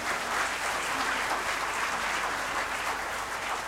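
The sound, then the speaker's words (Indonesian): Applause from a church audience at a Christmas service: steady, dense clapping that holds at an even level for the whole stretch, with no clear pauses or voices on top. “Berikan tepuk tangan.”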